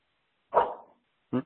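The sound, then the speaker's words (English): A pet dog barks twice as someone comes in. The first bark is louder and trails off, and after a short silence a second, clipped bark follows, with no talk over it. “Doggy. That's my dog. Someone's coming in.”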